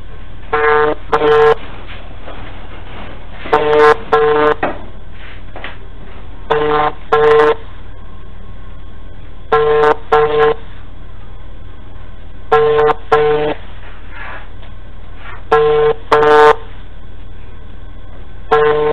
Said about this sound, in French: C'est ce qu'on va attendre maintenant. Son téléphone va sonner.